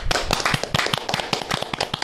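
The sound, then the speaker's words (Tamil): An audience claps for the winning team of a quiz: brisk, dense clapping from many hands, with sharp, even slaps that keep up steadily throughout. “மிக நீண்ட கரவொலியை அவருக்கு பரிசாக தருங்கள்.”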